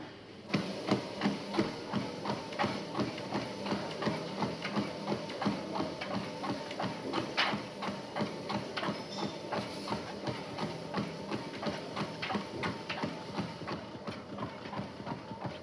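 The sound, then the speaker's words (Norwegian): Running strides on a treadmill during a gait check, many steady rhythmic thuds of footfalls on the moving belt, evenly paced and continuous throughout. “Oppover mølla her. Tredemølla.”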